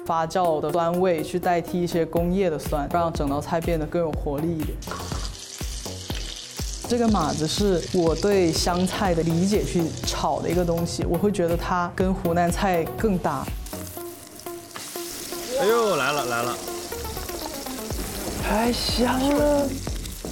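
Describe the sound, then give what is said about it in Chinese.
Sizzling of aromatics stir-fried in a hot wok for a coriander-based topping, a steady bright crackle running under continuous talk. “原味这边还是很像香菜的做法，就是上来爆香。”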